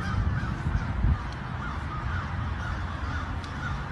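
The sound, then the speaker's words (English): Crows caw near East Palestine, where the birds are gathered in large numbers, their harsh calls scattered through a steady, rushing background noise with no talk. “And I think all of the crows are coming here. They're just everywhere.”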